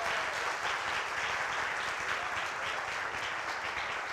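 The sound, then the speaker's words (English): An audience applauds graduates at a church graduation and baptism service with dense, steady clapping that holds at an even level throughout. “All right, one more time, let's give these guys a huge hand, shall we?”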